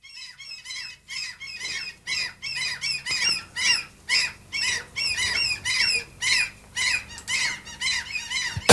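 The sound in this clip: Gulls squawking during a bingo session: many harsh, high calls repeated in a rapid, fairly regular series, loud and steady from start to finish, with no talk.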